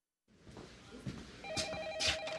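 A telephone rings in a scene from the film Alex Cross. Faint, steady electronic ring tones start partway through, over low background noise.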